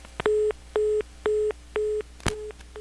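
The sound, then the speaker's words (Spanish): A telephone busy tone after a dropped call, five evenly spaced mid-pitched beeps about half a second apart, with a sharp click just before the last one. “Bueno, se cortó la llamada. Bueno, se cortó, una disculpa”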